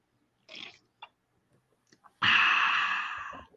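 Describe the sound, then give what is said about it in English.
Coffee being sipped: a short slurp and a few small mouth clicks, followed by a long, airy exhale that fades out. “or some ASMR coffee right there”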